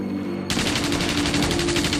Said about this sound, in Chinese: 台风战斗机的威力很大。 装载20毫米炮弹的台风战斗机飞到敌军上方，